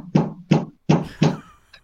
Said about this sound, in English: Got somebody knocking, Johnny. I gotta answer this door.